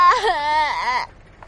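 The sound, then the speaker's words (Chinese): A young boy bursts into crying, a high, wavering wail held for about a second before breaking off abruptly. “却见他孙子甩开他的手便开始哭了起来。”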